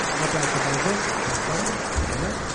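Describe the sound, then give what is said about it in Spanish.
Audience applause at a rally awards ceremony honoring the Criterium Galicia winners at the Rally de Mariña: steady, dense clapping throughout, with a voice speaking over it. “público aplaude.”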